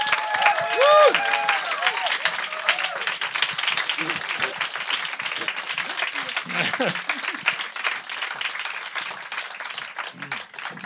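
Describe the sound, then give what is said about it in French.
An audience gives an ovation for a young author guest: dense, steady clapping from a crowd runs the whole time. Voices are heard over the applause. “je vous demande vraiment de faire une ovation, mais bien plus encore, à Monsieur Yann Olivier”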